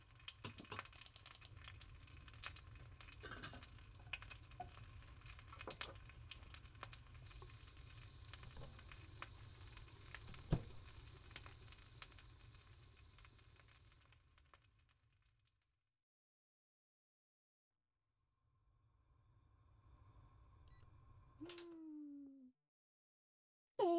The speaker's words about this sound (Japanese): 目玉焼き、片焼きがいいんだっけ。 すぐ作るから顔を洗うなりぼーっとするなりしてて。